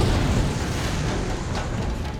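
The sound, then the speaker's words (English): A roaring burst of fire unleashed from a mouth, a loud, dense, rumbling whoosh that stays sustained for about two seconds without a break. “His mouth snapped open as he unleashed a burst of fire in Eshu's direction.”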